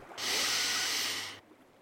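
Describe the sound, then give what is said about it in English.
One long, deep breath during a guided relaxation exercise, a soft, steady airy hiss lasting just over a second, heard alone. “So, let's take one big deep breath again together.”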